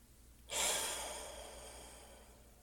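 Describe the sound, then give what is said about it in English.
A deep, slow cleansing breath during a guided relaxation exercise, with a sudden airy rush of breath that then fades away gradually and smoothly over a couple of seconds. “And we're going to take a deep, cleansing breath. Maybe the deepest you've taken all day, letting it out slower than it comes in.”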